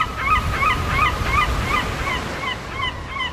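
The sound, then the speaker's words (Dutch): Gulls screech repeatedly at an English east-coast seaside resort on a sunny spring day. Many sharp, high cries come in quick succession over a steady low rumble of wind and surf. “het enige wat je hoort is het gekrijs van meeuwen en de muziek van verlaten amusementshallen.”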